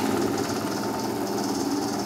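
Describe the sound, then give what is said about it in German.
A honeycomb uncapping machine with a conveyor belt runs with a steady, droning motor hum and fine mechanical rattle. The sound stays even and continuous throughout, with no voices. “Und jetzt kannst du hier auf den grünen Knopf drücken und ich mache das Laufband an. Achtung, ich starte die Entdeckung.”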